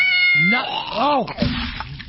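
A hungry cat meows loudly, giving a few rising-and-falling cries in quick succession.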